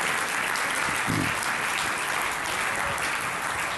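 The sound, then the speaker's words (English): An audience applauds to welcome a guest, a dense, even wash of clapping that holds steady from start to finish. “Let's put our hands together. Give Bob a big welcome.”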